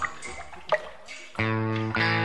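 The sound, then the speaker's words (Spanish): Water dripping from a leaking tap: a few light, separate drips plop at uneven intervals before sustained musical tones take over. “Repara los grifos. Una gota por segundo son 30 litros de agua perdida al día.”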